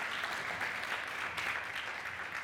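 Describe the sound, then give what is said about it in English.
Applause from an audience thanking panelists after a panel discussion, a continuous, fairly soft wash of many hands clapping with no clear breaks. “Let's give a big round of applause to our panelists.”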